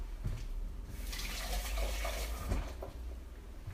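Running tap water pours steadily as a potato is washed under the faucet during home cooking. A continuous rushing spray sets in about a second in and carries on to the end, with faint handling knocks underneath.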